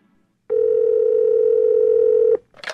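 A telephone tone for a call holds one steady, even pitch for nearly two seconds, then cuts off and is followed by a short, brighter burst.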